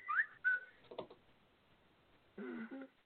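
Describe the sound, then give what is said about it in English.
A phone's whistle-style text message alert gives bright, bird-like whistled chirps, faint and quick, with a short two-tone whistle returning near the end. “Somebody got a parrot? No, that was my phone. I'm sorry. Oh, hey, welcome. Text message.”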